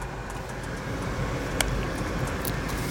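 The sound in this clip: A car driving along gives a faint, steady low rumble of engine and road noise, with a light tick partway through.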